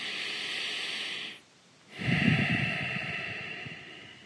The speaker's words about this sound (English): breathe with me.